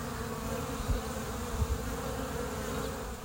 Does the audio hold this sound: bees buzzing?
yes

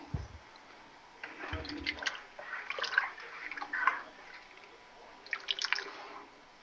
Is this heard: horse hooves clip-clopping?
no

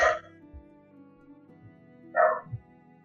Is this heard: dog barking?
yes

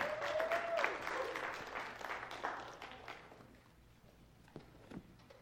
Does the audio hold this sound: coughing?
no

